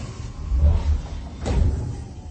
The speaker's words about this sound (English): Well, let's open the inner door and ask her.